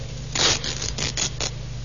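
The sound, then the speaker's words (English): Ripping of the lining of a raincoat found in a cellar corner: a few short, rasping tearing bursts in quick succession, fairly loud, with no voices over them. “Every other raincoat in the building is accounted for. Not a mark on it. Nothing. Yeah, try ripping the lining, Sergeant.”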